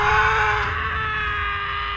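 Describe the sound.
A man screams during a sword-fight scene in a film, one long strained cry held at a steady pitch over dense background sound. It eases slightly toward the end.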